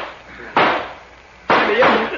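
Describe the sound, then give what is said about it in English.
Two loud, sharp bangs about a second apart ring out as gunshots in a radio drama shootout, the second with a longer, rougher tail. “Start shooting, Weepy. Start shooting.”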